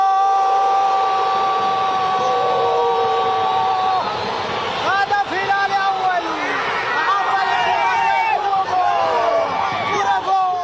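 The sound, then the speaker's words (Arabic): Football fans cheer at a stadium in Khartoum during a match against rival Al-Merrikh. A dense crowd roar carries steady sustained tones for the first few seconds, then wavering voices rise over the continuous din. “يعني كان هذا صوت الجماهير يبدو نعم. في أرض الملعب”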